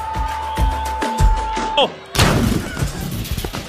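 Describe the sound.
Gunshot sound effect: a single loud, sharp burst of noise that breaks in abruptly and then trails off in a rough, noisy tail.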